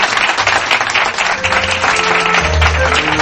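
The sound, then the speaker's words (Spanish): A studio audience applauds steadily, a dense, loud wash of clapping that holds for about three seconds with no pause. “vuestro aplauso, vuestro saludo para todos ellos.”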